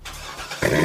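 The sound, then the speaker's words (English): Corvette sports car engine, a steady mechanical rumble that swells partway through into a louder, brighter roar and holds there. “You hear that? That's the sound of America's only sports car. That's right. It's a Corvette.”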